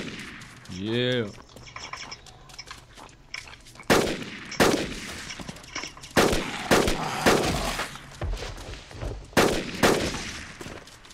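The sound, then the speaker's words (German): Gunfire from an AR-15 rifle in a zombie video game: many sharp, loud shots at irregular intervals over a busy background. A brief warbling electronic tone comes before them. “Ich lade jetzt mal mit der AR-15 los. Zombies!”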